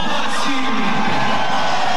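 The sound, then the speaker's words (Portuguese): Stadium crowd cheering and applauding as a football player, number 82, is announced, a steady roaring wash of many voices without clear breaks. “Vamos lá, para o Wallace, número 82. Esse aí vai ser bem aplaudido, hein?”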